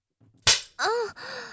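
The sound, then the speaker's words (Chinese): A leather belt lashes skin in a single sharp, crisp crack, then drawn-out tonal sounds follow; otherwise the scene is quiet. “是老公的皮带吗？虽然有点痛痛的，但是感觉好刺激。老公的皮带抽一下，人家的腿就夹一下。”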